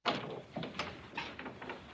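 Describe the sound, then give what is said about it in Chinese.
Knocking on a dormitory door: a few soft, muffled raps at uneven intervals, faint and with no voices. “今日 Michael 就去到李华的宿舍门口敲门”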